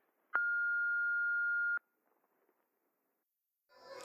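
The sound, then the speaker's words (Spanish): An answering machine beep on a radio station phone line: one steady, pure mid-high tone lasting about a second and a half, starting and stopping abruptly, followed by near silence. “Si quieres dejar un mensaje, una canción, un poema o lo que te dé la gana, espera después de la señal.”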